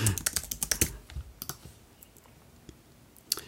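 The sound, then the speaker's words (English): An email address is typed on a computer keyboard. A rapid run of sharp keystroke clicks opens the sound, then it thins to a few scattered taps and near quiet, with one last click near the end. “I can't type today, whatever.”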